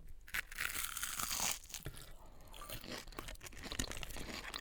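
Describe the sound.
Crisp crunching and chewing as someone bites into crispy fried food filled with creamy crab. A loud crackling bite comes first, followed by softer, irregular chewing.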